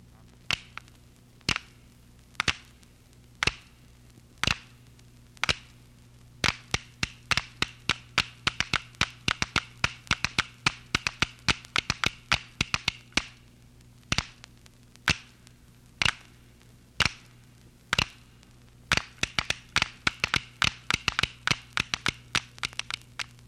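Tablitas, a South American wooden percussion instrument, played as many sharp, dry clacks: evenly spaced single strikes at first, then quick rhythmic clusters, over a faint low hum.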